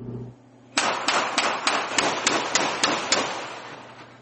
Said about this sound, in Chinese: 在泰国湾，美国和柬埔寨的海军军官准备向绰号“杀手番茄”的标靶射击。